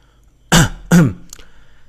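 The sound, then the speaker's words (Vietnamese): Two short, light coughs come from a man in his forties holding a microphone in a flower garden at an evening party. They are two quick, evenly spaced bursts with a faint breath after, and no talk. “Ông ta ho nhẹ hai tiếng, kéo sự chú ý của những người đang dạo chơi trong vườn hoa lại.”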